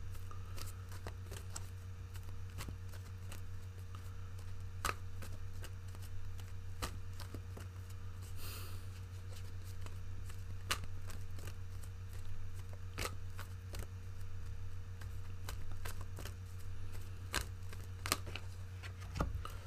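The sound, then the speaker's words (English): Faint handling of an oracle card deck as a card is pulled: soft scattered clicks and flicks of cards, with one brief rustling burst midway, over a steady low hum. “the first thing I'm going to do, Aries, is pull a crowning card for you and see what message your angels, ancestors, and protectors have for you at this time.”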